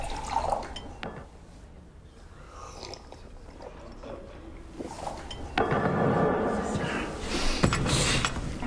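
A drink is poured into a cup, with dripping and a faint glassy ring over continuous background noise that grows louder in the second half.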